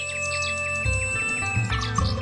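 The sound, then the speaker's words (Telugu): Nightingale song: a run of quick, bright, repeated chirps with descending strokes, heard over a steady musical backing that holds throughout. “ఎంత చిన్న పక్షికి ఎంతో అద్భుతమైన స్వరం ఉంది. అద్భుతంగా పాడుతున్నావు.”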